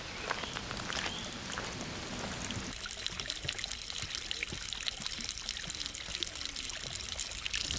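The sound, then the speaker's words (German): A small stream flows near its spring, a young tributary of the Rhine in Rhineland-Palatinate. Its water trickles and babbles faintly and steadily, with no voices. “Hier, man sieht es schon, wirklich noch ein ganz kleines Flüsschen. Sie mündet aber in den großen Rhein.”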